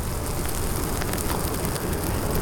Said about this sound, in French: Et c'est juste ce qu'il faut, ça brûle comme il faut, ni trop ni trop peu.